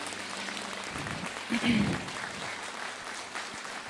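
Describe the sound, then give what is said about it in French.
A church audience applauds and cheers on a Sunday morning, a steady patter of clapping that swells briefly midway, with voices mixed in. “Est-ce qu'on peut remercier Dieu en l'acclamant encore ce matin?”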